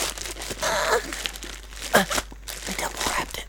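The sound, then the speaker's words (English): Cardboard box being torn open by hand, with ripping and crinkling in uneven bursts of varying loudness. A voice talks over the tearing. “Rip it open. Oh, yeah. Just tear directly into the box.”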